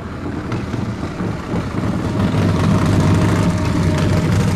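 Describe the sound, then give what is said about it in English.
A motorcycle engine running, giving a steady, dense rumble that grows a little louder partway through and holds level, with no voices over it. “That's the motorcycle. That's the motorcycle.”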